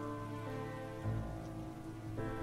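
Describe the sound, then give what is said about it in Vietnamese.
Heavy rain pours in a dense, continuous hiss, joined by a sustained low tonal hum, and stays even and fairly soft throughout. “Trời mưa nặng hạt kèm theo tiếng sấm rền vang”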